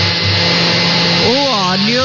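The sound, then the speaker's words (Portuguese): A blender whirs as it mixes eggs and warm milk, a loud, constant motor hum throughout, with a voice speaking over it in the second half. “No liquidificador, vai bater os ovos, o leite, viu? Os ovos, o leite morno,”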